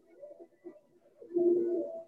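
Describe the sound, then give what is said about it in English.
Pigeons cooing softly: a few short, low, murmuring coos, then a longer and louder rolling coo near the end. “Will those pigeons come back around?”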